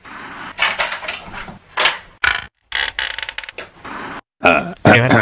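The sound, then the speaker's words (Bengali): Creaks and mechanical clatter of a hotel saloon door being opened, heard as a loud series of rough, noisy bursts broken by short silent gaps. “Royal সেলুনের দরজাটা খুলে দে”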